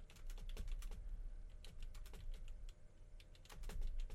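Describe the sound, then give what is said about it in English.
Rapid typing on a computer keyboard while entering a web search: many crisp, clattering keystrokes in an irregular, uneven rhythm, fairly loud and steady throughout, with no voices. “maybe if I just, like, type into the Googles, Riot at Go-Go Show.”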